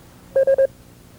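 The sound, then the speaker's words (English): Three short Morse code beeps at a steady mid pitch run almost together, making the "and" sign sound like the letters E-S. The tones are brief and clear over a quiet background. “when a fellow sends you an and sign that sounds like this,”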